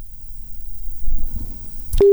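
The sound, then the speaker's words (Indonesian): A telephone call is cut off: low, muffled line noise ends in a sharp click, and a loud, steady busy tone starts right at the end. “Baik, sepertinya terputus ya. Kita akan menunggu kembali untuk sambungan teleponnya.”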